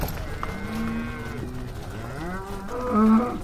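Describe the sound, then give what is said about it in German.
Black-and-white dairy cows moo on a green spring pasture, with a few drawn-out, overlapping low calls that bend in pitch. The loudest moo comes near the end. “Bocksprünge der Milchkühe auf grüner Frühlingsweide, Kopfstöße nach Rinderart.”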